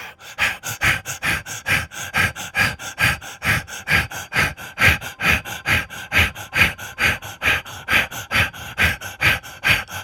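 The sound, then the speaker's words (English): Rapid breathing exercise: many quick, forceful breaths in a fast, even rhythm, each pulse a short, airy rush, continuing loudly and steadily without pause. “Return to the rapid breath.”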